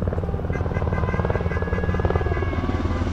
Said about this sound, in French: C'est un hélicoptère de l'armée.